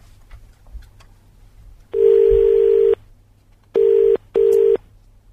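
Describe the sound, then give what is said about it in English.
A telephone number is dialed as electronic tones: one longer beep followed by two short ones, loud and even in pitch over a low background hum. “Right, hang on. cut you off, and then dial.”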